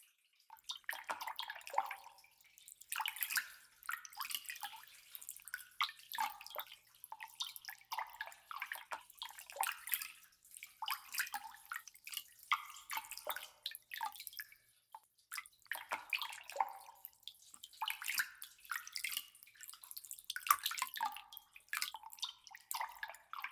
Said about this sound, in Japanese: では最後に全体をジャブジャブーっと洗いますね。